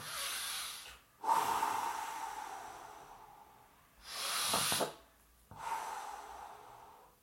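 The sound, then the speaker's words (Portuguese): Heavy, airy breathing: four loud, noisy breaths separated by short pauses, each a breathy rush of air with no speech. “Respira um pouco, vou respirar um pouco”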